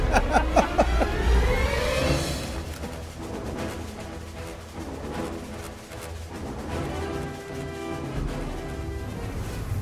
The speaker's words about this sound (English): Well, Jim, I got to tell you, that was a very interesting ride on the jetpack.